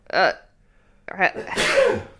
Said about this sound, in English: Uh-oh, I'm gonna sneeze. Here comes